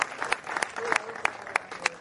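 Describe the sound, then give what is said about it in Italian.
Applause from an audience at a public ceremony honouring officials and guests: dense, steady clapping that carries through the whole stretch, with sharper claps standing out now and then. “un applauso anche per il professore Giuseppe Maria Marino, Giuseppe Carlo Marino”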